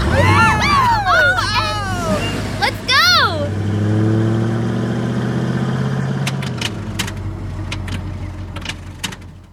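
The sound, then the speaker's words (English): A car engine starts as the key turns in the ignition, after excited voices, in a car that was supposed to have gas put in the tank. A low, steady engine drone holds, then fades under a few sharp clicks. “Betty takes a deep breath and turns the key in the ignition.”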